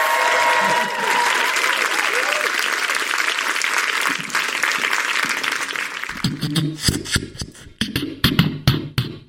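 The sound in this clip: A festival audience applauds and cheers for a rapper and record-holding beatboxer. Sustained loud clapping later thins and gives way to rhythmic percussive sounds.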